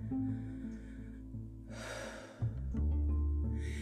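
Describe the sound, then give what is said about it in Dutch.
A deep breath in and out during a meditation: a slow, airy inhale, then a short gasp-like turn into the exhale. The breathing is fairly soft over a low steady hum. “Even diep inademen en uitademen.”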